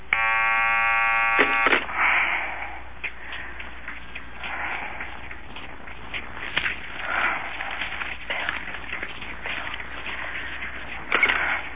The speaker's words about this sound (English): Oh, geez, there's another call on the line.